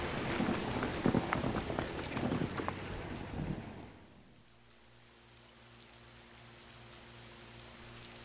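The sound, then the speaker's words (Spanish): Heavy rain from a storm pours down in a dense, loud hiss for about four seconds, then drops abruptly to a much quieter background with a low, steady hum. “esto ya es una tormenta.”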